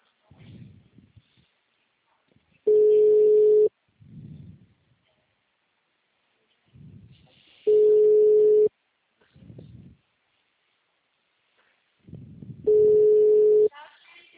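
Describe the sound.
Ringback tone on an outgoing phone call to a client: three long, steady beeps at even intervals. A voice talks quietly in the gaps between them.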